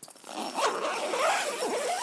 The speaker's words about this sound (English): But I'll just do a door here. You see, it's got a zip on both sides. Each bedroom's got a door, by the way. So, zip it up.